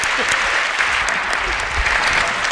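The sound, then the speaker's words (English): Audience applause for a panel at a live science event at the Brooklyn Academy of Music: dense, continuous clapping from a large crowd, loud and steady throughout with no break. “Give it up for our panel.”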